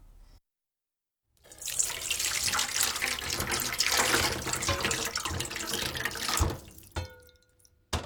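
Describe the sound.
Water runs from a tap over fried fish balls in a strainer, rinsing starch off their surface: a steady rushing stream for about five seconds, then a brief splash and trickle near the end.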